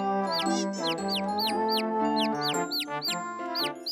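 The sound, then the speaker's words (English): Baby chicks cheep in a rapid, continuous stream of high, bright peeps, many overlapping calls with no pause, alongside lower clucking-like tones. “Look, Tospik, something's wrong with the baby chicks.”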